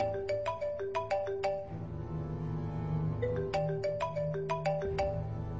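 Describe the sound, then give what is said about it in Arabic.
A mobile phone ringtone rings with a quick, repeating electronic melody of bright notes, clear and fairly loud, playing in two bursts with a brief sustained stretch between them and no voices. “موبايلي رن، نفس الرقم اللي كلمني وانا في الطيارة”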